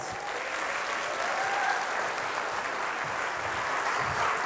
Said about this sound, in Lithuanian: Pasitikime plojimais.